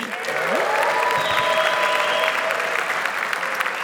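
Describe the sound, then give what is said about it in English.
A live audience applauds with steady, dense clapping that stays even and fairly loud from start to finish. “Can we hear it for our live audience?”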